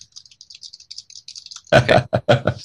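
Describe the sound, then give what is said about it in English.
Typing on a computer keyboard: a rapid run of faint, light key clicks, then a few louder, heavier keystrokes at the end. “I'm working on that app as we speak. That's the sound of me typing.”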